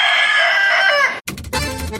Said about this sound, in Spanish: Y que vivan las peleas de gallos.